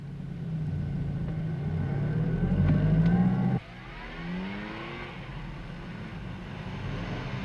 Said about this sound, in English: Wait for a big enough gap before you can turn. Right, left, right again. Get ready in first gear. Okay. Off we go.